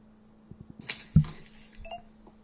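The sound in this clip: Phone dialing as a number is entered to place a call: a few soft taps and clicks followed by short electronic keypad tones, fairly quiet overall.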